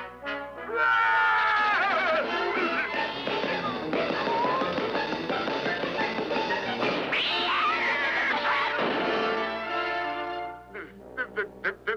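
An animated cat meows in a kitchen with long, loud, wavering cries that swoop up and down in pitch almost without a break, ending in a few short, sharp yelps.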